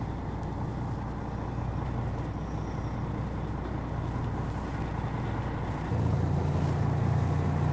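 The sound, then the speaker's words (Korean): Low, steady engine rumble of a small boat carrying passengers between islands toward an uninhabited island. The drone is faint and continuous, deepening and growing slightly louder near the end, with no voices. “이번엔 더 작은 배죠.”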